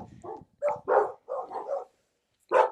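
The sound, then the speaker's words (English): Dogs barking with no clear trigger, one with its hackles up: a string of gruff, mid-pitched barks in irregular bursts, then a short pause and one final bark, with no voices. “Oh, welcome to our world of dogs. They don't even know what they're barking at. They're just barking.”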